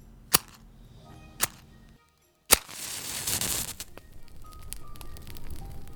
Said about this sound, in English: Oh, and since we're telling stories in our metaphorical room, might as well do it around my little audio fire. Let me get that set up.